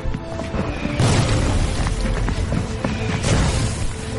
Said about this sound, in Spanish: Corren a través del bosque hacia la línea de combate del batallón. La artillería alemana explota por todas partes.